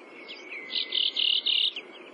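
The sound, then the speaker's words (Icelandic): A thrush sings near the doctor's house on Flatey in Breiðafjörður, giving a short phrase of a few high, clear whistled notes repeated quickly, moderately loud over a faint low hiss. “Í grennt við læknishúsið í Flatey heyrist fugl syngja kjör, kjör, kjör, kjör. Kjör, kjör, kjör, kjör.”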